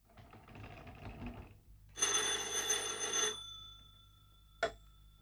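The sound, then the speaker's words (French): A telephone bell rings for a call from a town hall to a village police station. It comes in two buzzing bursts, then a single sharp click after a pause. “Monsieur le maire téléphone à la gendarmerie.”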